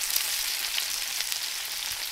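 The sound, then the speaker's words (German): Pork pieces, some with thick rind, fry in their own fat in a pan, giving a steady, crackling sizzle with small pops throughout and no talking. “Ab geht's in die Pfanne. Wir braten die Stücke in ihrem eigenen Fett an.”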